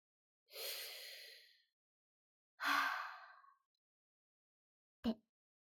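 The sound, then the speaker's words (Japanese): Deep breaths are taken slowly during a relaxation exercise. Two long, airy exhalations are followed by a short, sharp puff of breath, with quiet between each. “じゃあその状態で一回深呼吸。”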